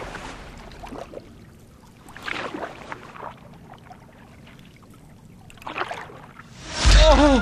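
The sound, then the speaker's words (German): Oars dip into water as a rowing boat is paddled at night. A few soft, splashy strokes come at uneven intervals, then a louder rushing surge of water closes the sequence. “Gedankenverloren kletterte er in sein Boot, fasste die beiden Ruder und tauchte sie rhythmisch ins Wasser.”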